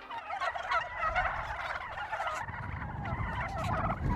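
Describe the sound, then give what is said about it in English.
A flock of turkeys gobbles in many overlapping, rapid warbling calls. The calls go on without a break at a fairly soft level, with a low rumbling noise underneath in the second half. “Listen to this. That is the sound of a flock of turkeys.”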